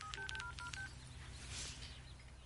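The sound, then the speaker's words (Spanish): A mobile phone plays a few quick keypad tones as a number is dialed. The beeps are short and faint, followed by a low, steady background hum. “Mira la pantalla y marca un número.”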